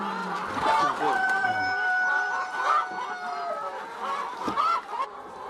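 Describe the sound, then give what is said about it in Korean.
Clucking and calling of hens on a farm holding about 6,000 birds, many overlapping tonal calls that blend into a steady, busy chorus throughout. “닭이 얼마나 있는데요? 여기 여기 한 6,000수.”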